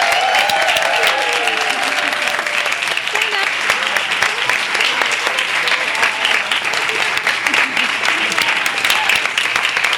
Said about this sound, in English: All right, let's give a round of applause to all of our performers.